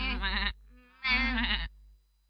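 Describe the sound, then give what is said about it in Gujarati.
Goat bleating on a bridge, two separate wavering, quavering bleats with a short gap between them, loud and alone with no other sound. “થોડી વારે એ પુલને બંને છેડેથી એક એક બકરી દાખલ થઈ.”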